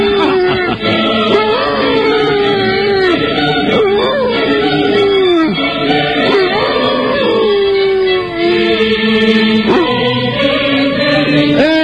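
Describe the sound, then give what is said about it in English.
A dog howling in long, loud, sustained tones whose pitch wavers and slides up and down, continuous from start to end. “Nuppy the dog. I like that. That was good. Thank you, Nuppy. Perfect pitch. Good boy.”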